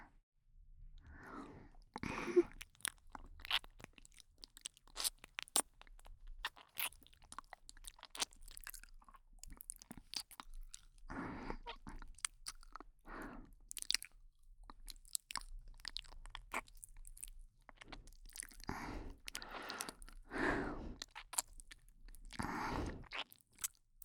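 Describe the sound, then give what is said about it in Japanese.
Licking sounds on an ear: faint, wet mouth noises with many irregular smacks, clicks and slurps, some in denser clusters, heard alone without talk. “まだ舐め残しがあるかもしれませんから、もう一度舐めさせていただきますね。”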